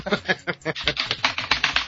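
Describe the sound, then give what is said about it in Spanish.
Typing on a computer keyboard: many quick keystrokes click in a fast, uneven rhythm at a fairly low level. “Escucho un teclado.”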